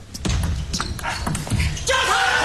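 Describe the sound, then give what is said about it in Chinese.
A table tennis ball bounces during a serve in a professional match, giving a few light, sharp taps over background noise. “再来，3-7，梁靖昆发球。”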